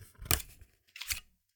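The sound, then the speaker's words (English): A paper liner is pulled out of a plastic cassette tape case. Two short, faint rasping scrapes are separated by a brief pause. “This is the liner coming out of the tape case. You'll know this sound.”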